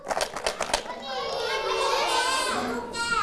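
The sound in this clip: A hand shaker filled with stones rattles in a few quick, crisp bursts at the start, followed by children's voices talking and calling out together.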